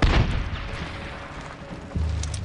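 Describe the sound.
Gunfire in a shooter video game: a few heavy, booming shots with a burst at the start and another near the end, over a sustained rumbling bed of game noise.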